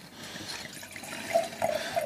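Water is poured for rinsing at a wine tasting, a soft, continuous splashing stream that grows slightly louder toward the end, with a few brief gurgling notes.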